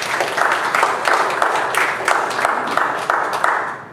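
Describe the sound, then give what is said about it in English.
A church audience applauds in praise, the claps falling into a steady, regular rhythm of many evenly spaced beats at a fairly loud, consistent level. “Let's give the Lord a hand of applause.”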